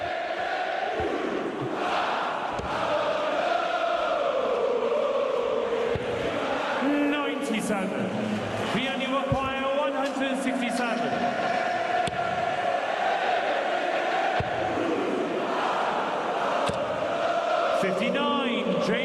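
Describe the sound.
A darts crowd sings together to warm up, a dense, sustained chorus of many voices that stays steady and loud throughout, with a few sharper shouts rising above it.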